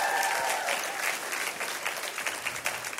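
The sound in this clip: An audience claps together in dense, steady applause that stays fairly loud throughout and eases off only slightly, with no clear voices above it.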